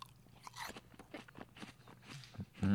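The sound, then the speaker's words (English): Chewing a crisp fruit salad of apples and bananas: quiet, irregular crunching bites and wet mastication, with a louder crunch at the very end. “This has apples and bananas. So it's much more musical in that sense.”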